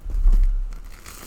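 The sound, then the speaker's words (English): A loaf of freshly baked bread is torn open by hand: a short, soft, muffled rip with light crackling that fades within about a second, with no talking. “It tears really easily. My fresh bread.”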